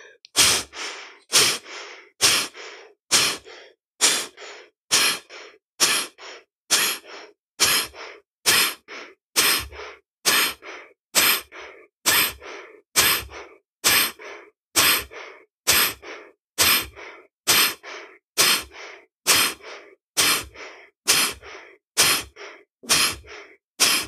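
Pranayama breathing exercise at a moderate pace, with many forceful, evenly spaced breaths, roughly one each second, as the lungs are fully emptied and half refilled. Each breath is a sharp, airy rush, and no one speaks.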